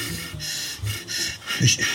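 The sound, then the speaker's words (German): Deep breaths drawing in a sweet-tasting substance, in a German-language drama scene: a few airy, breathy inhalations and exhalations at moderate loudness, with a faint low vocal tone in places and no speech. “Schmeckt irgendwie süß durch das Zeug. Nicht reden, tief einatmen.”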